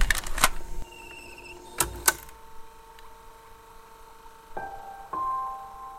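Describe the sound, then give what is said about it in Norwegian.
Old audio cassettes being loaded into a player and play pressed: a few sharp mechanical clicks and clunks, then a steady faint motor hum with more clicks near the end. “Børge åpner noen av de gamle kassettene. Setter de inn i spilleren og trykker play.”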